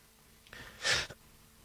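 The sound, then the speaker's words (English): A single human sneeze: a brief faint breath in, then one sharp, hissy burst that quickly cuts off into quiet. “I just sneezed.”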